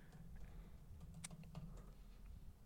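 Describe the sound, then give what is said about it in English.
Quick, faint keystrokes on a computer keyboard as a search is typed into YouTube, a light irregular patter over a low steady hum. “Let's see if we can find it on YouTube with these hints. Type in Freebird fight scene and see if something comes up.”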